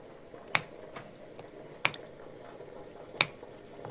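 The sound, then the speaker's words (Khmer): Tofu boiling in a pot: three sharp, separate pops spaced over a second apart above a faint, steady low hiss. “អូតាហូពុះហើយ អូពុះបានណាចានបណ្ដោយ”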